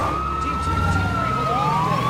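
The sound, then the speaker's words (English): Fire truck sirens wail loudly and continuously as the vehicles race towards an aircraft. Two overlapping siren tones sound together, one gliding slowly downward while the other climbs, over a low rumble of traffic. “Captain Rich watches as fire trucks and bomb disposal teams race towards his aircraft.”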